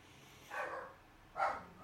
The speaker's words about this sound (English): Oh, shoot, my dog's barking.